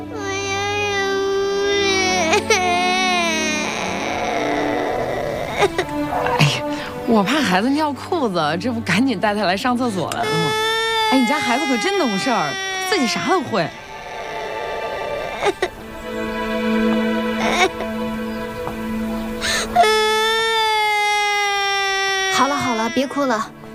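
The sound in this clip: A young child cries and sobs at length, the wailing rising and falling in pitch, while adult voices talk over and around the crying.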